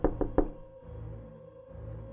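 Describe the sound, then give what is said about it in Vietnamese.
Three sharp knocks on a door come in quick succession, fairly loud, then give way to a low, steady background hum with no voices. “từ từ đưa tay lên gõ cửa”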